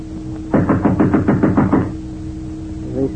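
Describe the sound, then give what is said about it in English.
Knuckles rap on a door in a quick, even burst of about eight or nine solid knocks, loud and alone, followed by quiet. “a knock sounded on the door.”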